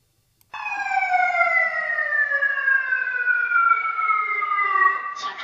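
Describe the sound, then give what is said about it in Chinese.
Fire alarm sounding inside a multi-storey service building during an emergency fire drill: one loud, steady electronic siren tone, rich in harmonics, that glides slowly downward in pitch for about five seconds without a break. “大楼内响起火情报警与疏散广播”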